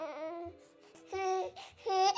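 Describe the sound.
Baby crying in the evening after a bath before bedtime, a few short, moderately loud wailing bursts separated by brief pauses.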